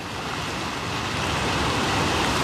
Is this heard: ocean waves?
yes